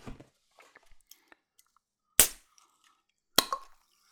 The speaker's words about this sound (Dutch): Het is weer dat gekke dopje. Die moet je eerst aantrekken van achter en dan, eh, dan eroverheen.